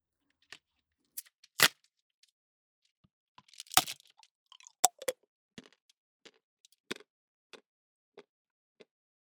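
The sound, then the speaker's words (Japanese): Chocolate being chewed and eaten: faint, scattered crunches and small clicks, irregular and spaced apart, with no talk. “あー、美味しい。チョコも食べちゃおう。”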